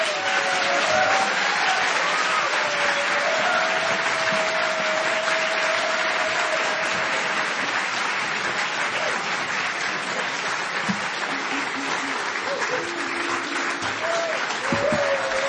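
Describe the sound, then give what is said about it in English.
A library audience applauds steadily and loudly, with high whoops rising above the clapping near the start and a few more scattered through the sustained ovation. “I never heard people whoop in a library before.”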